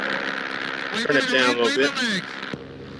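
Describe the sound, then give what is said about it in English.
An engine roars at full throttle as a vehicle starts a climb, a steady loud drone with a person talking loudly over it. The higher part of the noise drops away near the end. “When I wave my legs, let's start climbing. I'm going to go full throttle.”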